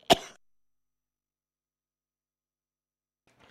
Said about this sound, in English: sorry about that, got a tickle in the throat.